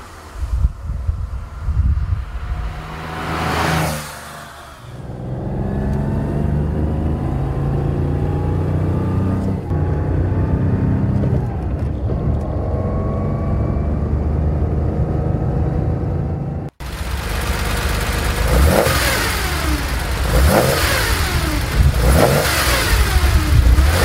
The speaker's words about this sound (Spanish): Venga, Porsche 911.